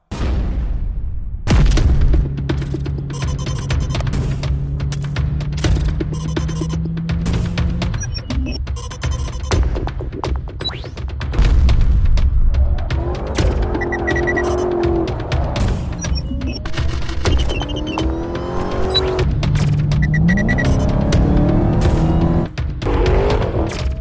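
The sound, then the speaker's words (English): Engine roar from a Dodge Charger Hellcat widebody with a supercharged 6.2-liter V8, a loud, continuous drone that climbs in pitch in a few revving sweeps. “This Dodge Charger Hellcat wide body has a supercharged 6.2 liter V8 with 717 glorious horsepower.”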